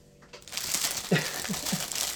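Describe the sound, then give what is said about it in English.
Foil crinkled by hand, beginning after a brief hush and continuing as quiet, crackly rustles with a few sharper crunchy pops. “I am now going to crinkle some foil.”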